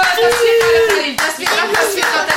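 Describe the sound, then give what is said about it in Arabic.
Audience clapping for a contestant's correct answer in a children's quiz game: a dense patter of hands that continues through the whole stretch, with a tonal sound gliding underneath. “تصفيق على خليل. تصفيق على خليل.”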